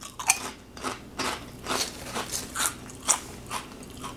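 Crisp bites and crunching come from someone eating spicy kettle chips. Many sharp, brittle cracks repeat at an uneven pace with chewing between them, fairly loud and with no talking.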